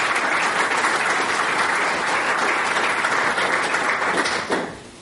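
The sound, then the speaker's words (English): Audience applause welcomes a speaker to the stage, steady dense clapping from many hands that holds evenly for about four and a half seconds, then tapers off quickly. “So, if you mind putting your hands just together to welcome Michael, please.”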